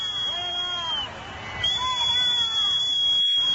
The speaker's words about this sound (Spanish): Es una cafetera que hay uno que se está haciendo el café.